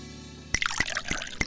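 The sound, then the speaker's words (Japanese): Golden, six-year-old wine from a screw-cap bottle pours into a glass. A faint low hum gives way to a brief gurgling trickle, with a few bright splashy plinks. “今注いでおります。”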